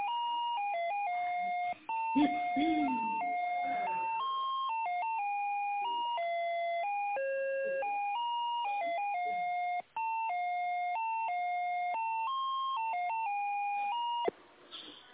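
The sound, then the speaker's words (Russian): Electronic hold melody plays on a telephone line while a call is transferred to an economics department, a steady chain of clean beeping tones stepping through a simple repeating tune, broken by a couple of brief dropouts. “Давайте я вас с экономическим отделом соединю. Минутку.”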